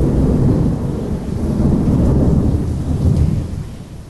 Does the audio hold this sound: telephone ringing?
no